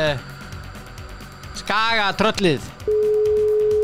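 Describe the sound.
A telephone tone sounds as a call is placed to someone. A steady single-pitched tone sets in after a short voice-like passage and holds evenly to the end.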